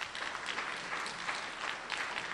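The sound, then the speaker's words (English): Audience applause at a court historical society gathering: dense, steady clapping from many hands that keeps an even loudness throughout, with no voices over it. “A round of applause for you, Marilyn.”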